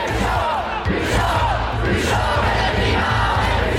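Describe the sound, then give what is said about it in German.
Young climate protesters in Lausanne chant in unison, a loud, continuous roar of many voices in a steady rhythmic pattern, with no pauses. “Wir sind heißer als das Klima, skandierte die dortige Klimajugend, lauter und vielstimmiger als anderswo.”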